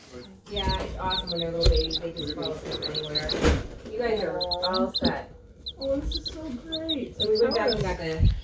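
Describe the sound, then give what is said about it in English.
Tiny baby chicks peeping in many rapid, high-pitched chirps that keep going throughout, mixed with people talking. “You hear up there, chicks? They're so small and cute.”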